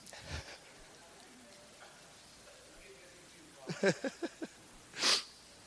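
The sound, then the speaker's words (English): Sniffing from allergies: a faint early breath, then a quick run of short, sharp sniffs and one longer, louder sniff, over a quiet noisy background. “I'm sorry, I'm really sniffly. That's allergies, I think.”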